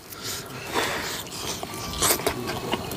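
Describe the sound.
Biting into a charred grilled mudskipper fish, roasted whole without gutting or seasoning, gives a few soft, crisp crunches followed by faint chewing, heard alone without talk.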